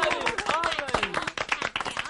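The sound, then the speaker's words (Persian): Children in a classroom clapping for their classmates, with many quick, uneven claps. Voices talk over the clapping. “دست بزنیم براشون.”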